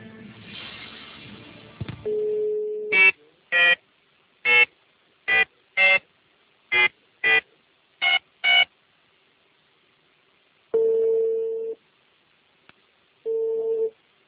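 Telephone tones as a call is placed for a live phone-in: a steady tone, then nine short dialing beeps in an uneven rhythm, followed after a pause by two longer ringing tones separated by silence.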